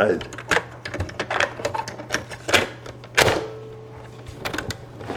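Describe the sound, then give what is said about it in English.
A cassette tape is turned over in a recorder, making a run of sharp, irregular plastic clicks and clunks, with a few louder knocks among the smaller rattles. “Let me just turn this tape over.”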